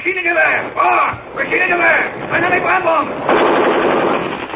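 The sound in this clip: Machine-gun fire in a foggy wartime battle against advancing German troops, with shouting voices heard first and then a loud, rapid, sustained burst of gunfire near the end.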